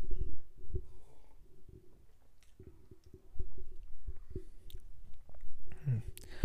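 Faint mouth sounds of someone tasting a sip of beer: soft wet clicks, smacking and a swallow-like squish, scattered unevenly and quiet throughout.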